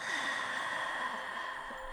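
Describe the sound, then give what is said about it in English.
A soft, breathy exhale with a throaty H sound formed at the back of the palate, heard as a faint, steady hiss that lasts about two seconds without a break. “you put your fingers at your temples and you exhale, like you make this H sound with your, like, at the back of your palate”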